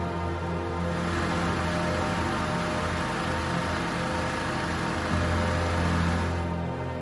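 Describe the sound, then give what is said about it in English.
A generator engine runs on hydrogen-oxygen gas made by electrolysis of water, giving a loud, steady rushing drone with a low hum underneath that holds evenly throughout, with no voices. “Once enough gas has been created, we can start the generator.”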